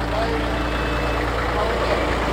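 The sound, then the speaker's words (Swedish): A red-and-yellow double tractor drives past near a John Deere tent at an agricultural show, giving a steady, loud engine rumble with a low, droning hum that holds evenly throughout. “dubbeltraktor körande förbi oss här. En röd och gul.”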